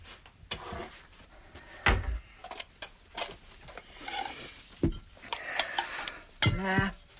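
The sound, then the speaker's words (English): Bowls being fetched: ceramic clinks and clatters mixed with knocks and bumps, with a few louder clanks scattered through a busy, irregular sequence. “Do you want me to get the bowls? I'll do it.”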